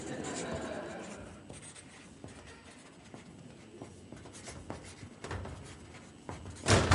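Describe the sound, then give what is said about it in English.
Writing on a board as a long passage is copied out: continuous soft scratching and rubbing strokes for several seconds, fairly faint, with a louder scrape right at the end. “This is a long one to write now.”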